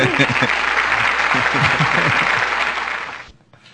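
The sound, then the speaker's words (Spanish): Applause of a standing ovation: dense, loud clapping that holds steady for about three seconds with voices mixed in, then drops away quickly near the end. “Ovación. Sí, sí, sí, standing bárbaro, ovation.”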